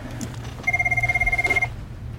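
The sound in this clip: An office desk telephone rings once, a warbling electronic trill of rapid pulses lasting about a second, set over a low steady background hum.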